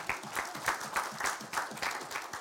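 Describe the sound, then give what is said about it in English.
Faint applause from a church audience welcoming new members, many hands clapping in a loose, fairly even pulse throughout. “They clapped again. We ain't voted. What if they say no? We take our clapping back.”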